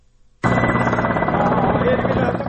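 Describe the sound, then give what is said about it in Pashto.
Military combat helicopters of foreign forces fly overhead during an operation in Marjah, Afghanistan. Their loud, steady rotor and engine drone starts abruptly after a brief quiet moment and holds evenly to the end. “د بهرنیو ځواکونو د جنګي هلیکوپټرو تر څنګ ځینې نورې الوتکې هم په هوا کې ګرځي”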